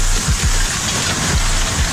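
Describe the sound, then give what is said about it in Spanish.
Hail falls during a storm in Córdoba, a steady, loud, dense patter of stones striking surfaces that holds unbroken throughout with no voices. “parece nieve, pero no es nieve, ¿eh? Es granizo.”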